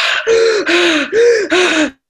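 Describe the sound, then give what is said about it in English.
Heavy, out-of-breath breathing of a singer mid-song, held right against a microphone: several loud, rasping gasps in steady succession, each a noisy burst with a hoarse voiced edge, with no words spoken. “if you are really out of breath during a song and you are holding your microphone right in front of your mouth, all you're going to hear is”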